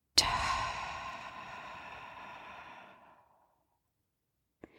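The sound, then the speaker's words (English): A deep, audible exhale during a guided meditation breathing exercise, a long sigh that starts strongly and fades away over about three seconds, followed by silence and a brief click near the end. “Nice deep inhale in and exhale out.”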